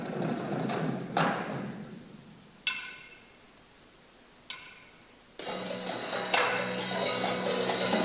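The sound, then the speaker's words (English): Bass and snare drums of a marching drumline, with the bass drums clashing into the snares and the end snare drummer off, give a few sharp isolated hits followed by a loud, dense stretch of continuous drumming. “Bass drums banging into the snares. Some problems with end snare drummer.”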